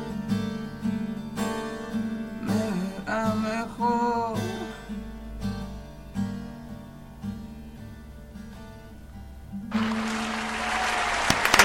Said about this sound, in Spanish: hay un montón de gente aplaudiéndote. Vos no estás escuchando. Buenísimo. Porque no tenés auriculares, pero acá viene una multitud de repente.